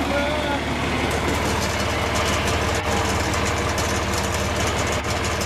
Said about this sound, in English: Speed up the motor a little bit by pulling that knob, or this, down towards you.